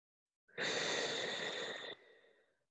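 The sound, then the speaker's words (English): A single deep breath: a loud, airy rush lasting over a second that cuts off abruptly, then trails into a softer, fading breath. “Take a deep breath.”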